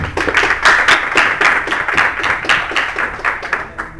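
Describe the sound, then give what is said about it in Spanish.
Audience applause welcoming a lecturer at a university welcome conference: many distinct hand claps in a loose, fairly quick patter that is strong at first and thins and fades toward the end, with no voices. “Demos un fuerte aplauso para recibir a la maestra, por favor.”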